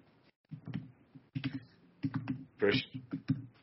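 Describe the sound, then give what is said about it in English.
Typing on a computer keyboard: irregular bursts of soft clicking keystrokes, with a voice murmuring underneath. “Now we are going to move on to our second film of the day. Give me a second. I got to type this in.”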